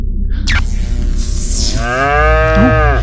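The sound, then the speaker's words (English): A loud, drawn-out cow moo inside a comic sound effect of a UFO abducting a cow from a field, with a droning hum and a sweeping tone before the deep, harmonic moo fills the second half. “the sound of a UFO coming over the Johnson Field. Hmm. And taking a cow.”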